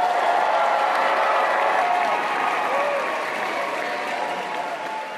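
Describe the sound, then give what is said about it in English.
Audience applause welcomes Sigourney Weaver at an Alien Day screening of Aliens in a theater, a dense, steady wash of clapping with some crowd noise that tapers slowly toward the end. “Put your hands together now for Ms. Sigourney Weaver.”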